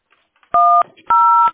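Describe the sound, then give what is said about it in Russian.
Telephone keypad tones sound as an internal extension is dialed during a call to a billing centre's automated line. Two short, loud, steady beeps are separated by a brief gap. “Это я пытаюсь набрать ее добавочно”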